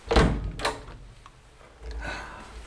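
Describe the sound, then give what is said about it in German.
A cellar door thuds shut: two heavy thumps in quick succession, then a duller, longer thump after a short quiet gap. “Das ist die Tür zum Keller.”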